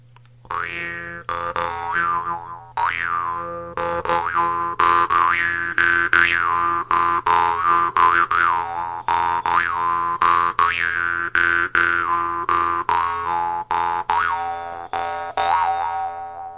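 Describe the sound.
Twanging of a modern jaw harp from Tuva, plucked in a fast, steady rhythm over a constant low drone, its bright overtones sliding up and down to form a wavering melody.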